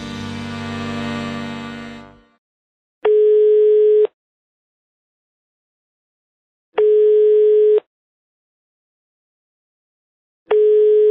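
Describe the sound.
Three long, steady telephone ringing tones of an unanswered call, each lasting about a second and evenly separated by long silences, after a short burst of other tonal sound at the start.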